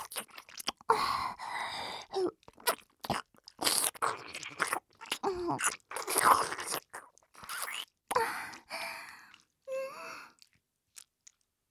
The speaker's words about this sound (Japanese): じゃあ、認めるまでもっともっと舐めちゃおう。